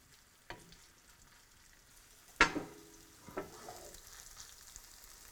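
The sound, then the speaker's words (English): Zucchini fritter batter frying in hot canola oil in a nonstick pan, spooned in a couple of tablespoons at a time: a few soft spattering bursts, one sharper and louder than the rest, over a faint, steady sizzle. “Let's add some oil. I'm using canola. And now that it's hot, we do a couple tablespoons at a time in here, and then we're gonna flatten them out in a second.”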